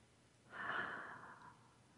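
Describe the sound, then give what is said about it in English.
A single slow, deep breath during a guided breathing exercise. It is soft and airy, swelling and then easing away over about a second, alone and faint. “let's just take a couple of deep breaths here together, breathing in and breathing out.”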